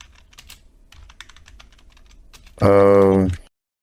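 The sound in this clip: Faint clicks of typing on a computer keyboard run for about two and a half seconds, then a loud, steady buzzing tone with strong harmonics cuts in for under a second and stops.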